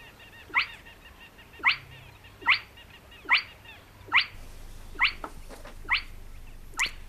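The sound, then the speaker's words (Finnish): Spotted crake calling: about eight sharp, upward-whipping whistled notes repeated roughly once a second, clear above a low steady background hum. “Aikamoinen ääni ja tarina tuolla luhtahuitilla, sen meille kertoi Juha Laaksonen”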